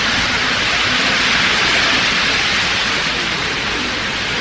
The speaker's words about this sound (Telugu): ఇవాళ మధ్యాహ్నం అంతా ఎండ, ఇప్పుడు వర్షం, అది కాలం.